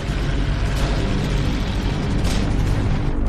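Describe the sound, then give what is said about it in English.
Enemy shells exploding outside while machine guns fire against walls and windows, blended into a dense, loud, continuous battle roar with no separate bursts standing out. “Enemy shells drop outside. The machine guns burst against the walls and windows.”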